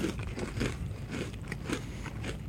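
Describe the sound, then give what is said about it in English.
Crunchy biting and chewing of a snack: a few soft, crackly crunches recur over a steady low background, with no talk. “I'm going to take a bite, and yep.”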